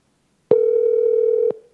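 Telephone dial tone after a call is hung up: one steady, even tone lasting about a second that starts and stops abruptly, heard alone.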